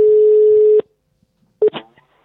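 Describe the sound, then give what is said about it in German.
An outgoing telephone call ringing out, with a single steady low ringback tone lasting under a second, then silence, then a few short clicks and crackles as the line is picked up. “Dann schnappen wir mal das Telefon und klingeln mal durch.”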